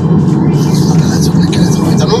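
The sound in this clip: A car drives over a bumpy road, its low steady rumble of engine and tyre noise continuing under a person talking.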